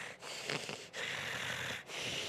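A person imitates the wheezy breathing of a nose shattered by a cast iron sled, producing a few raspy, hissing breaths separated by short pauses.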